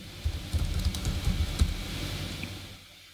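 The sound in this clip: A few quick keystrokes tap on a computer keyboard while a Google search is typed, faint and clustered, before trailing off into quiet.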